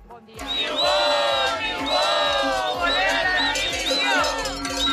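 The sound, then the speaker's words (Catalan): Teachers protest on the N-230 road in Alta Ribagorça: a crowd chants and shouts in loud, continuous waves, while a steady, regular drumbeat pounds underneath the voices. “I aquest és el so d'una altra mobilització, en aquest cas també de docents, a l'N230, a l'Alta Ribagorça,”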